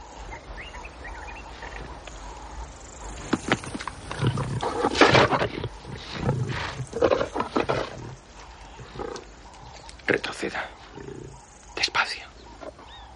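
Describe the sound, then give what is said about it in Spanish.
Two lions in Africa growl and snarl as they feed on a buffalo carcass, with many irregular bursts of rough, throaty rumbling, some loud and some subdued, separated by brief quieter gaps. “Ven a una pareja de leones devorando el cadáver de un búfalo.”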